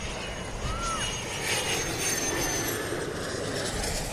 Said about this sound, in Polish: O, leci następny. Ląduje.